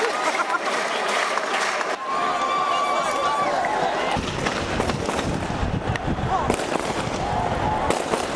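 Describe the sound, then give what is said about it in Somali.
Celebratory gunfire from government troops shooting into the air in Mogadishu after a presidential election: many sharp cracking shots in irregular bursts over constant crowd noise and voices. “Waxaana jiha walba laga maqlay rasaas taageer ah oo ay kor u ridayeen ciidamada dawladda.”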